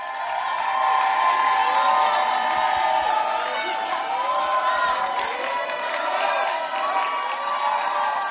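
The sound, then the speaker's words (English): A church audience cheers for a testimony, a dense, sustained wash of shouts, whoops and excited voices that stays loud throughout. “Put your hands together for a powerful testimony. We have our final testimony. Help me welcome Akofa to share her testimony with us.”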